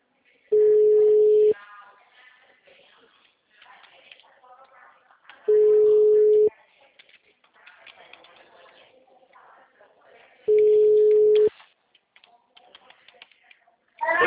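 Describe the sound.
An outgoing telephone call's ringback tone: three long, steady, mid-pitched tones about a second each, spaced roughly five seconds apart, with faint background sounds in between. No dialing is audible.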